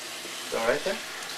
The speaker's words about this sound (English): puts it in the sink, and turns on the tap